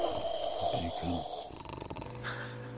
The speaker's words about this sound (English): Oh, and they're all snoring. I can't take it.